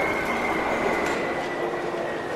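A subway train arriving at a station makes a steady rumble with a thin high whine running through it, holding an even loudness from start to end.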